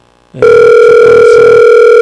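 A telephone ringing on the line as a call is dialled. After a brief quiet lead-in, a loud, steady electronic tone begins and holds unbroken to the end.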